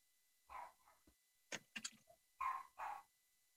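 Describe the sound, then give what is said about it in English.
A Shorkie, a Shih Tzu and Yorkie mix dog, barks in the background in several short, sharp yaps and louder barks that come in small clusters and pause between them. “That's my dog in the background. Oh, you're dog. Sorry. I may have to mute. It's a Shorkie, Shih Tzu Yorkie combination.”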